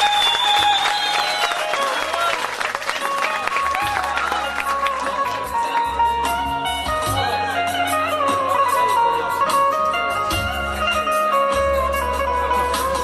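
Applause at a performance where poems are recited, a steady dense wash of clapping throughout, mixed with music that carries low bass notes and ringing tonal lines.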